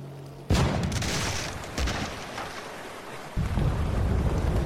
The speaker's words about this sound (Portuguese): Lá fora, tiros de canhões, trovão e gritos de dor e ódio.